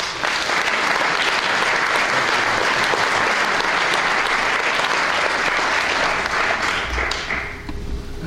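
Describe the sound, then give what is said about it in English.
An audience applauds as a dean is welcomed to the podium for an engineering lecture, producing dense, loud, continuous clapping from many hands that holds steady for several seconds before easing off at the end. “I also thank you for your applause.”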